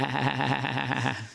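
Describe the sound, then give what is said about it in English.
A sheep bleats in one sustained, wavering call, loud and alone, with a buzzy, nasal tone that holds steady before tapering off at the end. “Samuel says, wait a minute, what is the bleeding of the sheep that I hear? What sheep? That bleeding of the sheep.”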